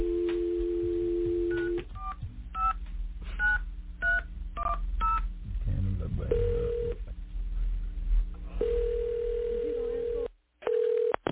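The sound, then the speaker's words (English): A telephone line's steady dial tone gives way to a quick series of touch-tone beeps as a number is dialed, followed by two long, even ringing tones and a brief cutoff at the end. “We're going to call. I'm going to go ahead and dial a number now.”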